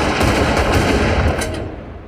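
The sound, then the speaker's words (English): Gunfire from a film shootout scene: dense, overlapping shots blur into a steady roar of cracks and rumble, fading off toward the end. “And Joe fires, and they all fire.”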